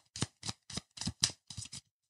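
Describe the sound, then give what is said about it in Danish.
An ordinary deck of playing cards without jokers is shuffled in seven short, crisp bursts of rustling card noise at a fairly even rhythm, separated by silence. “jeg sidder her med helt almindeligt sæt spillekort, hvor der ikke er nogen joker. Og så blander jeg kortene, okay?”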